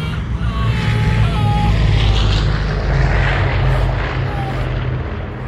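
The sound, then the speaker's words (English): A World War II B-25 bomber roars low over pine trees lining a golf fairway at night. Its engine drone is loud and steady throughout, swelling slightly toward the middle and easing near the end. “a World War II bomber flying so low that it could touch the tops of the pine trees lining the fairway.”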